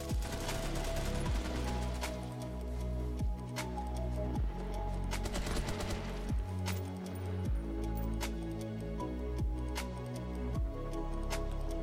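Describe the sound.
Video game gunfire crackles in rapid, repeated bursts, many sharp shots striking over a steady, droning tonal backdrop throughout.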